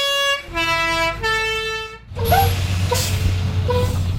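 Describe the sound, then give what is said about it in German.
The yellow Swiss post bus sounds its three-note horn on arriving at its terminus in the Averstal village at 2126 metres. Three loud sustained tones are followed by a low engine rumble and a few brief higher sounds. “Endstation Juf. 7-mal am Tag fährt der gelbe Postbus durch das langgezogene Averstal hinauf auf 2126 Meter.”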